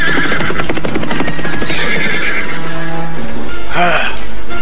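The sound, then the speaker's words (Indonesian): Horses ridden fast by a group of men whinny loudly near the end over a dense, steady rumble of movement. “dari kejauhan muncul serombongan laki-laki yang berkuda cepat mendatangi mereka.”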